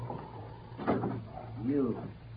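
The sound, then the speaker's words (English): A door being shut gives a single dull, faint thud, followed by a brief voice. “Come on in, Wally, and shut the door.”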